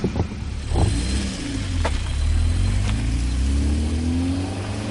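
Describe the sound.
Car engine revving and pulling away, its drone climbing steadily in pitch as the car gathers speed, with a couple of brief mechanical clicks along the way and no talk.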